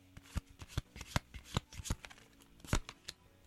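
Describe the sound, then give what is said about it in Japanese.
Playing cards are shuffled in a quick, irregular run of many crisp, faint riffling snaps, with no other sound. “カードを切る音がね出ておりますけどね”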